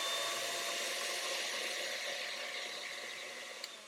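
An electric hand mixer's whisks spin in cake batter with a steady, high motor whir. The whir fades slightly toward the end, and a brief small click comes near the close.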